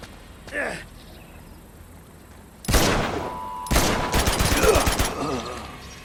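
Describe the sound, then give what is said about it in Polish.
Video game gunfire sounds first as a brief burst, then as a louder volley. A sustained stretch of rapid automatic fire follows, with dense, sharp repeated cracks that stop abruptly. “Gdzie on do mnie strzela?”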